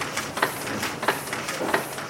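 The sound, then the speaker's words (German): Printing presses run in a daylit print workshop where about twenty people work at the machines. A steady mechanical clatter carries three regular, heavier bursts, each about two-thirds of a second apart. “Durch die Fenster fällt Tageslicht in die Werkshalle, in der rund 20 Menschen konzentriert an Druckmaschinen arbeiten.”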